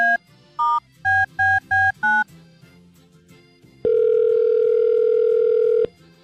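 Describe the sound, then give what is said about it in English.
Touch-tone beeps sound as a call is dialed to a German restaurant: six short tones in quick succession, then after a brief pause a single steady ringing tone lasting about two seconds. “So let's dial it up and see if we can get some German questions answered.”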